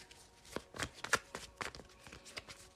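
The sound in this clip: Tarot cards are shuffled by hand in quiet, soft riffling bursts, many short papery flutters and taps following each other in an uneven rhythm with no one speaking.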